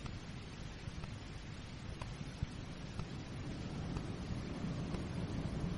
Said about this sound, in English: Listen to that wind. I couldn't live with it. This place juts out like a crag. It's westerly tonight, off the sea.